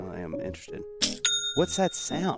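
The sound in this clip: An online store's sale notification chime: two quick, bright bell-like dings ring out and hold briefly between people talking.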